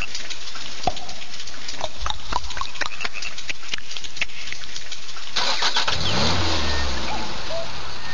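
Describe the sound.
A Škoda Octavia engine cranks with a long run of rapid clicking. It then catches and starts, settling into a loud, low, running hum.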